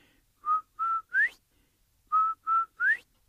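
Whistling stands in for a turtle's whistle in a Cherokee folk tale: six clear, bright notes in two matching groups of three, each group two steady tones followed by an upward-sliding note, heard alone without talk.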